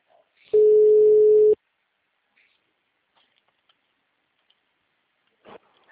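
Telephone tone while placing a call: a single steady, clean beep lasting about a second, then near silence with a few faint clicks and a brief rustle near the end.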